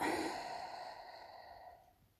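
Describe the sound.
A single deep, slow exhale during a breathing meditation, soft and airy, trailing off gradually into quiet.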